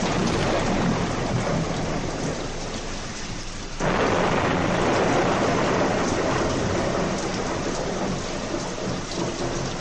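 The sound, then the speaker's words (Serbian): A heavy thunderstorm pours down rain in a dense, constant roar, rumbling thunder blended into the wash. Partway through, the downpour swells abruptly louder and stays at that fuller level to the end. “Jedne noći naiđe velika oluja.”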